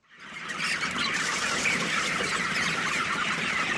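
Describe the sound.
Dense, continuous clucking and chirping from a flock of over 2000 chickens kept in a large hall with many windows on a poultry farm in Khost. The sound stays loud and steady throughout, with no voices.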